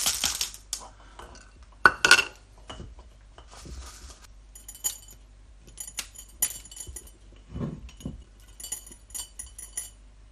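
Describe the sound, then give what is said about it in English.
Light clinks and rattles as spices and gentian root are added to a bottle for an infusion with brandy. Sharp glassy taps and small knocks are scattered irregularly over a faint background. “I'll put all the spices now into the bottle. Okay, so first I'm going to add the, uh, the gentian root.”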